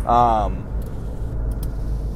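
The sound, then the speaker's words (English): Steady low road rumble from a car being driven, continuous and even throughout, opened by a brief voice sound at the start. “I'm driving to a lunch meeting right now”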